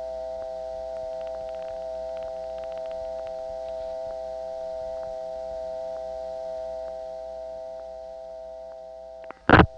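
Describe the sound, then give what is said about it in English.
Telephone busy signal mixed with jumbled PBX line tones, recorded at night: steady, layered electronic tones hum throughout with faint clicks, ending in a brief, louder burst of noise. No one speaks. “The busy signal is mixed in just because that particular PBX has mixed up tones, as we heard on the previous call.”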